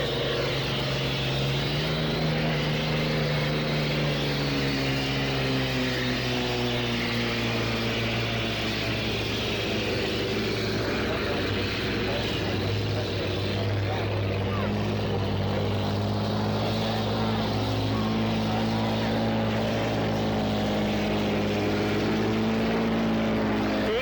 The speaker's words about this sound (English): That's Atlas Van Lines just coming out of the pits for heat 2C.